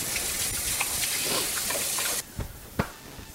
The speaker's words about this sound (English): And again, washing the hands.